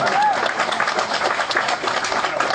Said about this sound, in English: everyone wants to applaud. Go ahead, applaud.